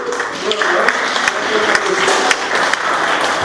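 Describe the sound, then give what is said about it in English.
Round of applause from an audience after a demonstration with household items: a dense, steady patter of many hands clapping throughout, with a few sharper claps standing out. “Round of applause,”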